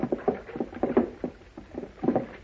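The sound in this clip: In an audio drama, a boat moves on water. Soft, rhythmic sloshing and splashing pulses repeat steadily, like paddle strokes pushing through the water.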